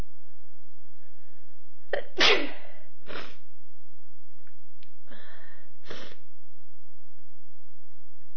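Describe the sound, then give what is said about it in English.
A person sneezing: one sharp, forceful sneeze near the start, then a few softer breathy bursts. “I hope I won't be sitting here all night sneezing.”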